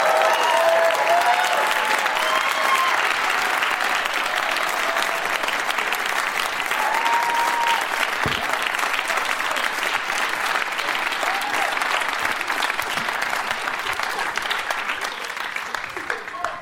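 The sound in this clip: A studio audience applauds to welcome four returning guests onto a show. The clapping is dense and steady for the whole stretch, staying loud with no breaks and easing only slightly near the end.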